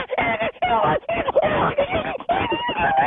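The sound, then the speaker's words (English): A voice imitates the high-pitched panic screams of African painted dogs in a frenzy: shrill, wavering yelps in several quick bursts with brief gaps between them. “It's a high pitched panic scream that almost seems to disorient the predator at the time or the prey at the time.”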